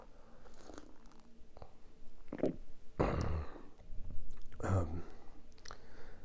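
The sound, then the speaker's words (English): Coffee is sipped in a few quiet, wet slurping mouth sounds, with faint breaths and soft low thumps between them, heard alone and without talk. “Hold on. I need to take a sip of coffee here.”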